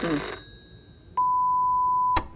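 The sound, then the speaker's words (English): A telephone rings: after a burst of noise, a single steady, mid-pitched electronic tone sounds for about a second, beginning and ending with a sharp click. “Let's let it go to answer phone.”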